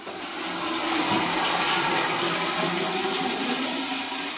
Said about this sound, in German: In der Wasseraufbereitungshalle des Kieler Aquariums werden täglich große Mengen Meerwasser gereinigt.